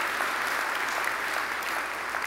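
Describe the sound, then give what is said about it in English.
Church audience applauding on Easter morning, a dense, steady clapping of many hands that holds at an even, fairly loud level throughout. “I think we need to give the Lord one more hand of appreciation.”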